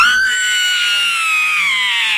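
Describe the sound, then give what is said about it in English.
A scream sound effect: one loud, high, sustained cry that holds steadily throughout, with only slight wavering in pitch and no talk over it. “I need the scream. Okay, I got to figure out which one the scream is on.”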